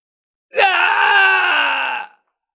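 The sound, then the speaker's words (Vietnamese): A man's loud scream of pain, one long sustained cry lasting about a second and a half, its pitch sagging slightly toward the end, from a man whose chest had been pierced by a black war spear. “Khổng Thác đột ngột hét lớn”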